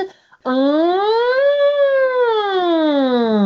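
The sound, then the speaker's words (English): A human voice imitates a siren as a vocal warm-up slide. One smooth, loud, sustained tone glides upward in pitch, then slides gradually back down. “Just a nice siren slide. How do you do it from your throat?”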